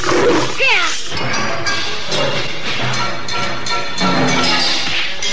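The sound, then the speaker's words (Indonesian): A striped tiger roars loudly in a dramatized fight, its growling roar mixed with crashing, thrashing impacts in a dense, continuous burst of noise. “Hup! Menyingkirlah kau, harimau.”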